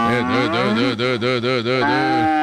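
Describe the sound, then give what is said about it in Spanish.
A cow lows loudly in one long, sustained moo with a pulsing, wavering tone while it is being milked. “A mí no me vas a poner a ordeñar a Ramona porque yo no soy capaz. Usted sí es capaz, tía. Es que está necia hoy. Quieta, Ramona.”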